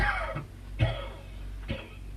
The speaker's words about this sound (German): Sie husten mir das ganze Gesicht voll Sand.